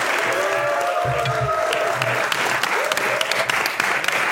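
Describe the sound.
Audience applause for a group of performers: a dense, even clatter of many hands clapping holds at a steady level throughout, with faint voices mixed beneath.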